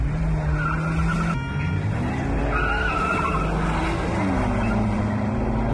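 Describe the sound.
Car engines roar and tires squeal as cars skid in an illegal street race. Loud, continuous engine noise carries sustained squealing tones that rise and fall throughout.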